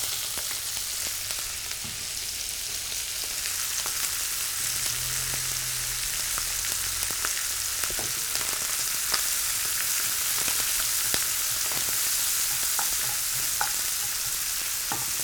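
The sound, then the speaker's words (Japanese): Onions sizzle in a pan where bacon and chicken have been browned for a potato gratin. A steady, hissing fry runs throughout, broken by many light clicks and scrapes of stirring, with no talk. “焼き色が表面についてきたらここに玉ねぎを加えます。”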